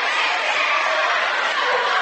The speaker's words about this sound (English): Shot is in, as you can tell by the roar of the home crowd here at the barn at New Knoxville.